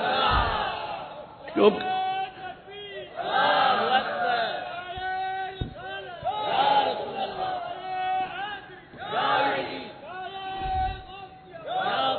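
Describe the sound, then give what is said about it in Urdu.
An elderly man shouts a religious slogan (naara) at a gathering. His loud, strained cries come in several bursts, and crowd voices rise around them. “بزرگوار نے جس ذوق سے نعرہ لگایا ہے نا، آپ جواب دینے میں قاصر ہیں”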